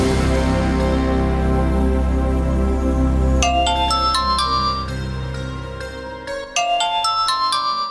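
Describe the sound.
Telephone ringing in a dramatized phone call: a bright ringtone melody of quick, high, repeating notes begins partway through, after a low, steady musical bed.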